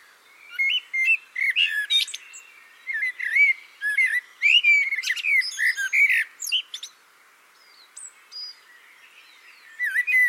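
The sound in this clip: A blackbird singing, alone: a string of clear, fluty warbling phrases and twittering chirps, high-pitched and separated by short pauses, with a few repeated motifs.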